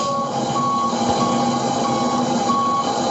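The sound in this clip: Reversing beeps from a truck backing up: a steady, repeating electronic tone over a continuous low engine rumble.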